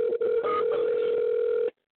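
Telephone ringing tone on the line: one steady electronic tone that holds for under two seconds, then cuts off cleanly into silence.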